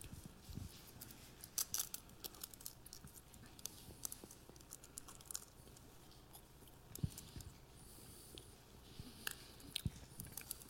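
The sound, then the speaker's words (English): Peeling the sealed layer off a prepackaged communion cup gives faint, crinkly crackles of thin film. Scattered small snaps and rustles come in an uneven patter for about ten seconds, with a few sharper clicks standing out. “Take the cup and peel the first layer, and take the bread, which represents the body of Christ.”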